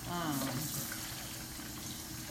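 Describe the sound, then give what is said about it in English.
Water runs from a kitchen tap into the sink while dishes are washed, a faint, steady hiss throughout. “So I'm gonna wash these dishes while I'm waiting on the water to boil.”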